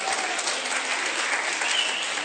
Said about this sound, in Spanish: Un aplauso al niño, por favor.